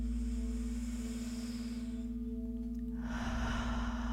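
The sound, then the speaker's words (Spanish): A breath drawn in during a guided meditation: a soft, airy rush that swells near the end over a steady low electrical hum. “No olvides inhalar.”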